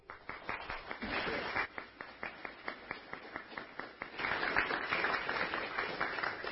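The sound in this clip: Audience applause welcoming a reverend as a speaker at Unity of Bellevue church, with a steady, rhythmic pattern of distinct claps that thickens into fuller, louder clapping in the final seconds.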